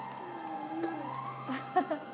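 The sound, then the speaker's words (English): A faint siren wails outside, its tones gliding slowly up and down beneath a low steady hum. “Usually, there's a siren outside. I wonder what that's about.”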